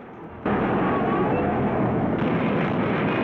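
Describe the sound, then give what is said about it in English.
A violent explosion rocks a space station in a James Bond film. It bursts in abruptly after a quieter opening and becomes a loud, sustained, rumbling roar that surges again near the end. “In a corridor, Dolly is thrown about as a violent explosion rocks the space station.”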